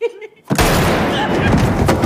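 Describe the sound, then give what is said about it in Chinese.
A gunshot, fired after a brief voiced sound, bursts in as a sudden loud blast. A dense, continuous noisy roar follows and lasts to the end. “你怎么就开枪了？ 我发枪永远比第一时间快！”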